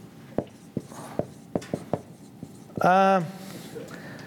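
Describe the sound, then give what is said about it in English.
Writing words down by hand: a few short, scratchy strokes spaced out in a loose rhythm, followed by a brief burst of a voice speaking. “Let's just write a few down here.”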